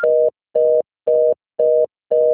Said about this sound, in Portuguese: Deixe seu recado. Você só será tarifado após o sinal.